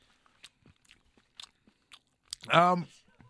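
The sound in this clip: Chewing food close to a microphone makes scattered soft, crisp clicks and crunches, fairly quiet. A short voiced hum follows near the end.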